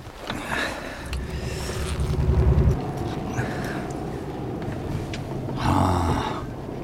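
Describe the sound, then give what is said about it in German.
Low rumbling engine and road noise from a car driving slowly along a road, steady throughout, with the rumble swelling louder twice. “Ich fahre einfach mal ein Stück weiter.”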